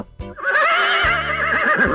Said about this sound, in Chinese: 对，这是马叫